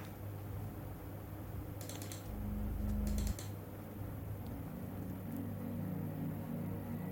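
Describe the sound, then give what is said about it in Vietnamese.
Buttons on a mobile phone are pressed to dial a number, making a few quick, soft clicks in two short clusters over a faint, steady low hum. “Nàng thành thục nhấn mấy lần, sau đó đưa điện thoại di động cho Tất An”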